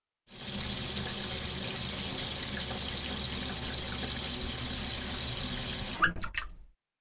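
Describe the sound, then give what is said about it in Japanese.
Tap water runs in a steady, loud, even stream while something is gently rinsed under it for about six seconds. The flow then cuts off with a few brief splashes and drips. “優しくすすいで。”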